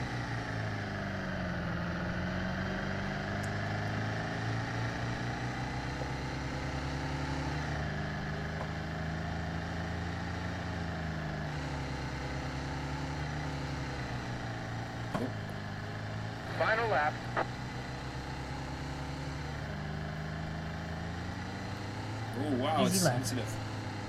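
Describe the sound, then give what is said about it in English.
A recovered vehicle's engine runs again after restarting, giving a steady low droning hum with wavering tone throughout, while short bursts of voices break in around the middle and again near the end. “Now, at least the vehicle's recovered and started again.”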